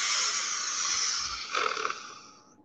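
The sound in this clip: A person draws one long, deep breath in. It is a steady, airy hiss lasting about two and a half seconds, turns briefly rougher near the end, then fades out.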